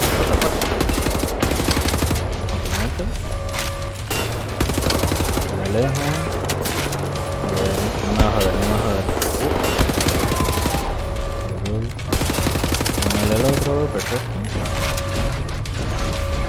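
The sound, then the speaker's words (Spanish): Gunfire in the video game Wolfenstein: The New Order, sustained rapid automatic bursts with mechanical clatter and occasional heavier booms, loud and nearly continuous, with a player talking over it. “Están disparando todas las mismas.”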